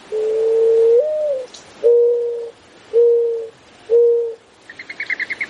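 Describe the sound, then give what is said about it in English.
Mourning dove cooing: four long, low, soft-toned coos, the first with a rising lilt, then a quick run of short, higher-pitched pulses at the end. “When I grew up in Arizona, I would hear the morning dove in the morning on the way to school, cooing late in the afternoon.”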